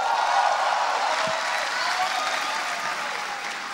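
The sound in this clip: A stand-up comedy show audience applauds to welcome the host. The clapping is dense, continuous and steady, and fades slightly toward the end.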